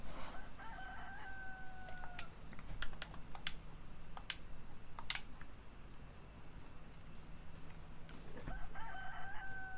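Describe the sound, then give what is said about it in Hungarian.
A rooster crows faintly in the background, with a crow near the start and another near the end. Sharp computer-keyboard typing clicks run through the quiet middle. “Valahol megint van egyébként egy kakas, itt kukorékol.”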